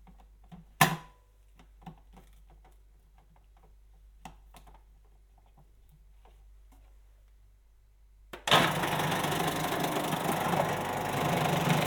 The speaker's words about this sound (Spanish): dividir esta cebolla en dos, la voy a cortar en dos, la voy a poner en el procesador para que me la lamine y me la deje a una juliana muy delgadita